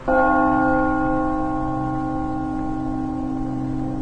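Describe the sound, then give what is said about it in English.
A large bell rings out from a single strike. Its deep tone is layered with harmonics and sustains loudly, fading only slowly over the following seconds, with nothing else heard. “decides to once again strike the bell”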